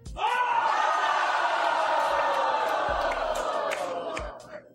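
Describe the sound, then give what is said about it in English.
A studio audience jeers in disapproval at a still image. Loud, sustained crowd booing and yelling holds steady for about four seconds, then fades out. “As a matter of fact, we're now going to show a still from that ending to our studio audience and get their reaction.”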